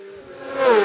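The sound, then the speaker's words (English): A racing motorcycle on a road race course gives off a steady engine whine that swells louder in under a second as it comes through. “Just waiting for the first bike to emerge, and here it is. It is that number one machine.”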